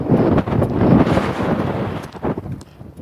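Wind buffets a microphone fitted with a flimsy wind guard outdoors while walking into a cold wind, a loud, low, rumbling roar that surges and dips in uneven gusts, with no talk.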